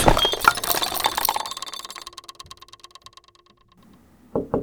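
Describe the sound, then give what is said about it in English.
A bathroom scale is tripped over and clatters on the bathroom floor. A loud jumble of knocks gives way to a ringing, rattling wobble that quickens and fades as it settles, followed by a final thump. “Yeah, sorry, I tripped on the scale.”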